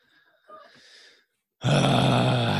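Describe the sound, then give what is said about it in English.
Heavy, exaggerated breathing into a microphone: a soft, breathy stretch first, then a sudden loud, harsh rush of air that continues to the end. “I just sit here and breathe really heavily.”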